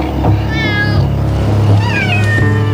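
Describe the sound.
Cats meow, a few drawn-out, wavering calls rising and falling over a steady low hum, with no voices.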